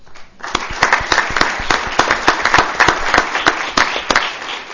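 Audience applause at a community event honoring local programs: steady, dense clapping from many hands, held throughout without talk.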